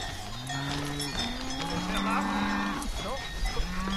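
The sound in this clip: Cattle in a herd low repeatedly, several long, deep moos overlapping one another, with faint ringing bell tones above them.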